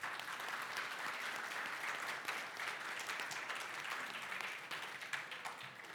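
Applause from the audience at a Whiting Christian Church service welcoming guest Stefanie Rowe, a soft but dense, continuous patter of clapping lasting several seconds.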